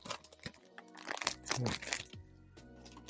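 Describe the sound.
Crinkling and crunching of a Gaston Lago chocolate wrapper from Pakistan being opened: a run of irregular crackles and rustles of varying loudness, with brief pauses between them.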